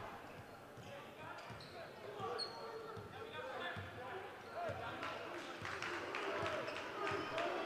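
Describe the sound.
A basketball is dribbled in a steady run of many bounces during a high school district semifinal game between Moeller and Middletown, with crowd murmur and a commentator talking throughout.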